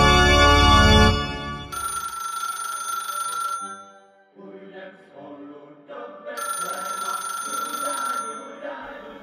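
A telephone rings during Christmas Eve dinner, two bursts of bright, buzzing electronic ring separated by a quieter gap with faint, muffled sounds.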